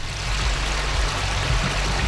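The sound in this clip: River water flowing at Rivière-Ouelle, a steady, even rushing wash with soft gurgling, continuous throughout and free of voices.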